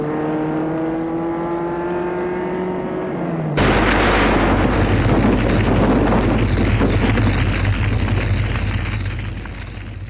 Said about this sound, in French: Tout d'un coup, elle a explosé.